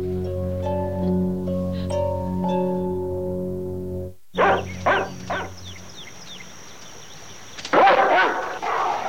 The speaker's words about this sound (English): The woman's dog barks at Columbo.